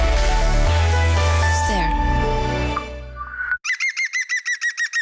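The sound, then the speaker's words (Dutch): A green woodpecker calls in a rapid, ringing laugh-like series of many bright, evenly spaced notes, each note curving in pitch, heard alone after a loud stretch of other sound. “Ken je het geluid van de groene specht?”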